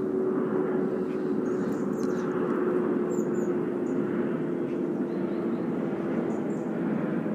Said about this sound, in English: Oh, sorry, apologies for the airplane noise.